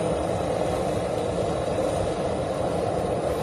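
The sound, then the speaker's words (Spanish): A constant, dense roar comes from an evacuation plane from Afghanistan landing in the early morning at Torrejón de Ardoz air base. The broad engine noise stays level and unbroken throughout. “ese aterrizaje del primer avión desde Afganistán con los primeros evacuados. Así sonaba en torno a las 4:30 de la madrugada la llegada a la base aérea de Torrejón de Ardoz.”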